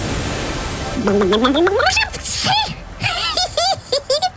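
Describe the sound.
A sneeze from a character heading home to the Adriatic: a voiced wind-up rising in pitch, then a sharp noisy burst, followed by further voiced vocal sounds.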